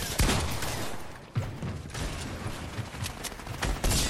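Pump shotgun blasts and mechanical clacks in the video game Fortnite: a few sharp bursts scattered over a busy, clattering game background.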